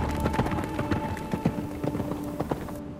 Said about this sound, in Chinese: 梨花，快点走好不好？还要休息啊。 哥，我都累死了。再说了，你看马都累了，让他歇一会儿吧。